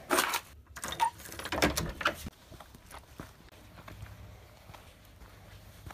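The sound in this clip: Footsteps of someone walking, a series of crisp scuffing steps, firmer and louder at first, then continuing more faintly and unevenly, with no talk.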